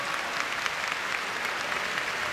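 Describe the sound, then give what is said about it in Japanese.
Applause fills a sumo arena during the bow-twirling ceremony performed by a makushita wrestler on day five of the Nagoya tournament at IG Arena. It is a dense, steady wash of clapping from a large crowd. “今競り上がりを見せたところで館内から拍手が沸き起こりました。”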